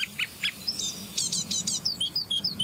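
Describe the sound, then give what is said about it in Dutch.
A great tit and a fledgling great tit call in a quick series of short, high chirps and thin tweets, fairly faint and heard alone without voices. “Koolmees en een uitgevlogen jong van een koolmees.”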